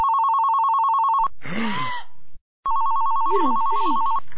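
A telephone rings unanswered, its line set to go to an answering machine. Two steady, bright electronic warbling bursts are separated by a short stretch of other sound and a brief silence.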